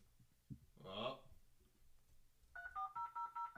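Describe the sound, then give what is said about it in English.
A dial-up modem dials out to a BBS or the internet in touch-tone beeps. A quick, evenly spaced run of short beeps jumps between two pitches, and the sound is faint overall. “Dialing a BBS or the internet and then connecting to another computer.”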